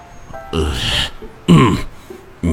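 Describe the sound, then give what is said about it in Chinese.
An elderly man clearing his throat, two rough, loud, voiced bursts with a short pause between them and a third just starting at the very end. “袁老爷子看了看后排的李琴书，清了清嗓子，然后有些不自在地说道”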